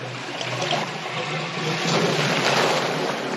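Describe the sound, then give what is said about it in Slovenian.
Water drains from a tank in a steady, rushing wash that grows somewhat louder in the second half. “Kaj je ta zvok? O, ne. Ti si kriva. Voda se spušča. Niža se.”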